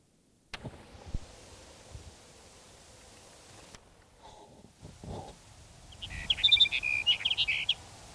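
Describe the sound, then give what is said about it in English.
A Sage Sparrow song: after a quiet stretch with a few soft low thumps and rustles, a brief burst of high, rapid twittering notes arrives near the end, faint but clear. “Here's Sage Sparrow number 13.”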